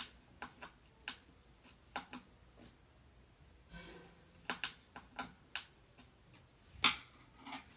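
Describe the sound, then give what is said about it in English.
Sharp ticking clicks from a new screwdriver driving a screw into a cabinet during assembly come in an uneven series, with a brief rougher scraping burst midway and one louder click near the end. “I have a new screwdriver that I'm gonna use to hopefully get this screwed in properly. There it goes.”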